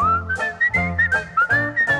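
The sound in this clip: A person whistles a bright, lilting tune in short phrases with gently rising notes, carried over a rhythmic instrumental accompaniment in a song.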